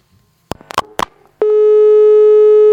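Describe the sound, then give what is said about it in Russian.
Busy signal after a dropped phone call: a few clicks and brief line noises, then a loud, steady electronic tone that begins abruptly and holds unbroken to the end. “Сорвался звоночек.”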